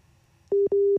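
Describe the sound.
Telephone busy tone after a dropped call: two short, identical mid-pitched electronic beeps with a brief gap between them, loud over a near-silent background.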